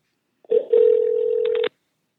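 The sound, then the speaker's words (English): Telephone sound as a call is dialed: a steady, loud, single-pitched tone lasting about a second, with a few brief clicks near its end before it cuts off. “We're dialing.”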